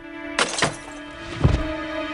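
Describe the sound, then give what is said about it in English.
Gunshots ring out as three sharp, sudden cracks at uneven intervals, the last one the loudest, over a faint, steady hum. “I've been shot.”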